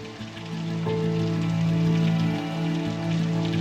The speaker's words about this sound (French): sous une pluie diluvienne